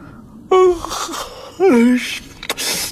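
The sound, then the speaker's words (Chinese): A man yawns loudly, two long voiced yawns with a breathy edge. The second yawn slides clearly downward in pitch, and faint breathy sounds come in between. “长发继续打着响亮的哈欠”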